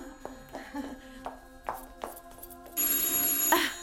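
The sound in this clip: A telephone rings in an Italian-language drama scene. Faint, irregular soft knocks come first, then a bright, steady electric ring starts partway through and holds loud to the end.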